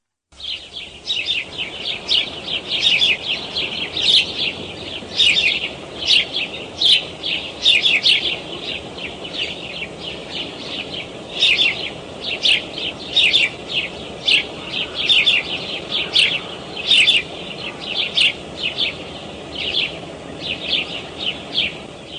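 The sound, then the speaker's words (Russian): Sparrows chirping in a steady stream of many short, bright, high tweets that repeat in quick irregular bursts throughout, with no other sounds or voices. “Воробьи.”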